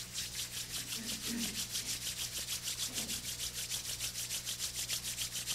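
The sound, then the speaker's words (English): Palms of the hands rub together in a steady, rhythmic back-and-forth, producing many even, dry swishing strokes at a constant loudness throughout. “Open the palms. Fold your palms. And rub the palms.”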